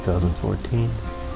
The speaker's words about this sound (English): here in Sarasota, Florida, and we're getting some rain.